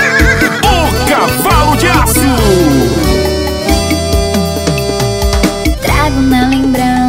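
A horse whinnies in a wavering, descending cry mixed into a loud music track, a song about a black steed, with the whinny standing out over dense instruments near the start.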